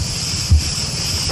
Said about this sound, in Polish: Cisza, spokój i cykady tylko. Tak. Cykady będą nam dzisiaj towarzyszyć.